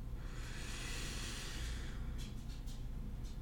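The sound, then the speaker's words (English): A slow, deep inhalation, taken as a calming breath, builds as a swelling airy hiss over about two seconds. It then eases into quieter, breathy rustles, with no talking. “We'll even end this particular episode of the podcast with a big deep breath, and then I'll let you go. So here we go. You ready? Stop what you're doing. Inhale.”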